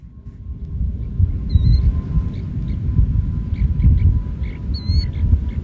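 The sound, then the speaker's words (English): Thin, high chirps of a snowy plover chick calling from inside its egg shortly before hatching. A few brief, faint peeps are spaced apart over a steady low background rumble. “That's the sound of a snowy plover chick chirping from inside an egg. The chicks tap at the eggs just before hatching.”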